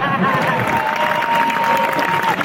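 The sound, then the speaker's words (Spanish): A live show audience breaks into applause for a performer who has just spoken a little Spanish. The clapping is loud and dense and holds steady throughout. “Y claro, el público estalla, se lo agradece.”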